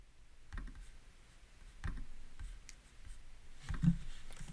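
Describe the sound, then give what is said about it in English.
A pen writing down numbers: three short, faint scratchy bursts of writing separated by pauses, alone without talk. “Just writing that down.”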